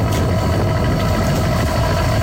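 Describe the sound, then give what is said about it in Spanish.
A boat engine rumbles as the vessel leaves the harbour at Fisterra at night, a loud, steady low drone that holds unchanged throughout with no voices. “Noite pechada. Así soa o motor dun barco sair do porto de Fisterra.”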